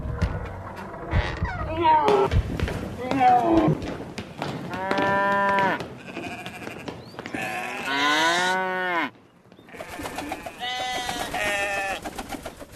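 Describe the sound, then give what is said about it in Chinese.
Cattle low and sheep bleat as a household's livestock is driven off during a departure from Egypt. Many overlapping calls, some long and wavering, come in rapid succession and stay loud throughout. “马上离开埃及，带着他们的家眷牛羊全部都带走，他们的神是可畏的。”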